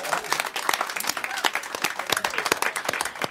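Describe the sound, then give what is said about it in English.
Studio audience applause, a brief burst of dense, steady clapping from a crowd, lasting a few seconds at an even level. “Give yourselves a hand.”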